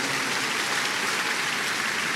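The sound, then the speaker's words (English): A church audience claps in praise during a service. The clapping is a steady, dense, hissing wash of many hands at moderate loudness, without breaks or clear individual claps. “People of God, give Jesus a big, big hand of praise for these precious ones that God has brought into his presence today. I thought you are clapping for Jesus this morning.”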